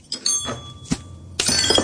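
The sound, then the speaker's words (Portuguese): A small glass beer bottle is thrown and smashed against a wall: a few knocks, then a sudden bright crash of shattering glass with scattering fragments that rings on to the end. “Tó vai para levar a mini à boca, mas Nuno atira contra a parede.”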